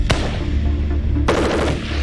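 A QJB-201 light machine gun fires in a dense, continuous roar of gunfire, with sharp cracks standing out near the start and middle, loud throughout.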